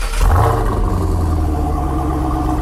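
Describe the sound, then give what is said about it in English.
A car engine revs hard at wide open throttle, producing a loud, sustained roar with deep rumble; the pitch climbs early on, then holds steady at full power. “Wide open throttle now. You were, okay. Wide open throttle right there.”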